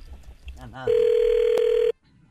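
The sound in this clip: A telephone ringback tone after a call is dialed: one long, steady, mid-pitched tone lasting about a second, preceded by brief muffled voices.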